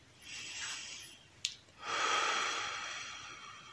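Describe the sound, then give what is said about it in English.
Deep belly breathing while settling into meditation: a soft breath, a brief click, then a long, steady breath that is louder and rushes on to the end, with no talk. “you can close your eyes and start with a few deep breaths from your belly”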